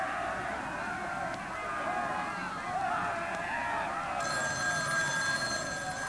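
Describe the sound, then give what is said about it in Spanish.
Telephone ringing partway through, rising over a steady crowd din at a busy ship departure, the bright ring continuing to the end. “Un momento, una llamada de última hora.”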